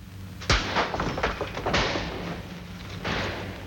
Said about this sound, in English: Try all these doors. Come on, boys. Try the doors. They're locked, sir. Look, sir. I'll smash them in. Go on, bring them right down.